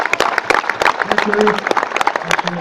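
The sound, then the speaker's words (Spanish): Applause from a gathering of comrades at a collective after a shared presentation, many irregular claps mixed with voices talking over them. “Un aplauso, compañeros y compañeras.”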